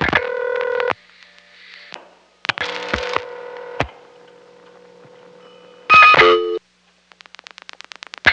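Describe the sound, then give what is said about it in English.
Touch-tone dialing on a telephone line to an operator cord board, with 0 and 2 keyed before a 10-digit number; loud sustained tone bursts alternate with quieter stretches, one longer tone follows, then a rapid train of short ticking pulses closes. “Now I've just dialed 02, and I'll continue to dial a 10-digit number.”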